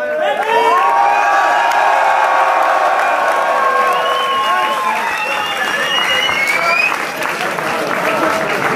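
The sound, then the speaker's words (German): An audience applauds and cheers after a German written a cappella rap battle, with loud, steady clapping and whoops and shouts rising over it throughout. “Ey, Props an euch beide, fetten Lärm, Alter.”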